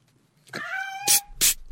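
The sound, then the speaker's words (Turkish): A cat meowing: one clear, tonal meow rising out of near silence, followed by two brief, louder noisy bursts. “Çekil git be. Miyavlayıp durma pis hayvan.”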